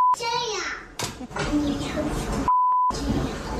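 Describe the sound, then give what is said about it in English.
Censor bleep covering a young boy's swear word: a child talks throughout, cut by two steady high-pitched beeps, a very short one at the start and a longer one near the end. “It's beeped, but he does say the full word.”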